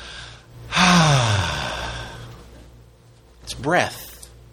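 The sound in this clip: A voice imitates breath with a long, breathy 'ah' exhale that falls in pitch, then after a pause a shorter breathy gasp.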